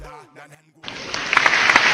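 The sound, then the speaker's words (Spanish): Applause for a young male group swells right after a brief spoken phrase, becoming a dense, steady wash of clapping that grows slightly louder toward the end. “Un aplauso para estos muchachos que lo lograron.”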